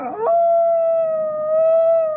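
A Mexican gray wolf howls once, a single sustained, steady-pitched tone that rises out of a brief rough onset and holds loud and clear for about two seconds, with no other sounds.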